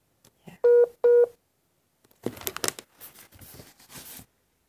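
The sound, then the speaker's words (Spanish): Two loud, short keypad beeps of a telephone being dialled, evenly spaced, followed by a stretch of crinkling and rustling handling noise. “Vamos a cortarle. Vamos a llamar por teléfono mejor.”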